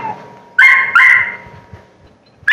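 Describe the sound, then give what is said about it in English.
A dog barks loudly at bedtime in a bedroom: two long barks in quick succession, then a third bark starting at the very end after a short pause. “That's our dog barking so loud you can't hear.”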